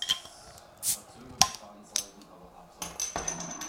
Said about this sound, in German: So, jetzt mein Getränk. Ja. Ich mach's mal bei deinem Mikro auf, weil ich glaube, das ist bessere Akustik, dann mal näher dran.